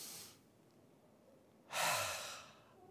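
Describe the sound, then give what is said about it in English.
A voice imitates a deep inhale after a quiet pause: a single breathy rush of air that swells quickly, then tapers off. “It's when our prayers ascend up to God and God in heaven inhales. He goes,”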